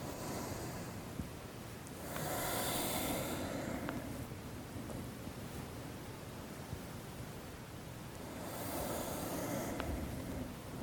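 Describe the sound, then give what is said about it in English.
Slow breathing in and out during a qigong exercise: two long, soft, airy breaths swell out of a quiet hiss and fade again, with no talking. “So exhaling, rounding, inhaling, extending. Exhaling, and inhale.”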